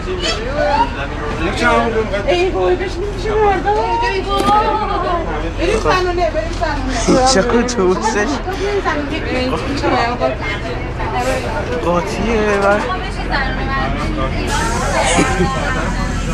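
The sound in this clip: Crowded bus interior as passengers board and chat: a continuous babble of many overlapping voices over a low, steady engine rumble.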